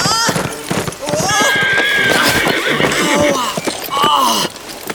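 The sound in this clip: A horse whinnies loudly and repeatedly, with shrill wavering cries, over brisk clip-clopping hooves from a fast ride. The sound is dense and continuous throughout.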